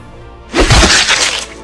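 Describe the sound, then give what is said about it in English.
A crashing, shattering impact as a fish battle axe smashes into a tree in a video game: one loud burst that rings on for about a second before fading. “And you smash into the tree with your fish battle axe.”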